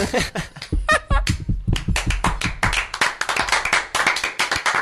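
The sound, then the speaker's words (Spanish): Applause from a small group, many quick, sharp hand claps tumbling over one another in an irregular, lively patter that stays fairly loud throughout. “Fuertísimo aplauso para Chelo Mañas.”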